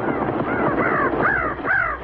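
Crows cawing, several harsh, rasping calls repeated in quick succession over a low background rumble.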